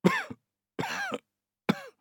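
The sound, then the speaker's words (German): Three separate coughs from a patient with a fever and a red, sore throat, coughing on a doctor's request. They are short, rough voiced bursts with pauses between them, heard alone. “Ja, Ihr Hals ist ganz rot. Husten Sie mal.”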